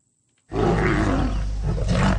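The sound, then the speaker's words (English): A lion roars in Uganda: one deep, loud, rumbling roar bursts in after a short silence and holds steady for nearly two seconds. “That sound is becoming harder to hear in Uganda. The country now has just 291 lions, down from almost 500 in 2011.”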